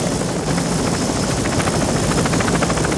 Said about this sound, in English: He regains consciousness and looks up at the spinning rotor blades against the sky thick with grey clouds.